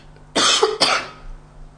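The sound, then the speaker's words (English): Two loud, rough coughs from a man in quick succession, the second slightly weaker, followed by a short breathy tail and then quiet. “Sorry, I'm going to cough again.”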